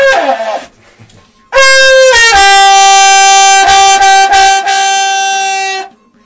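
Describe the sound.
A Mapuche trutruca horn is blown in one long, loud, steady brassy note rich in overtones. It is held for several seconds and follows a brief, fainter sound at the start.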